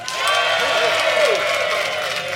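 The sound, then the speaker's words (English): Audience applause and cheering fill the stretch, a steady wash of clapping from a crowd with voices mixed in, rising slightly and holding at a moderate level. “I'd like you to applaud now.”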